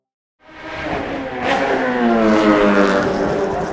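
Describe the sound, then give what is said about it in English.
A Formula One race car accelerates hard. The loud, buzzing engine roar starts abruptly after a brief silence, then builds and holds as a dense, high-revving whine. “It's easily the world's noisiest sport. Since 1950, Formula One racing has delighted fans around the world with its fast rides and fierce rivalries.”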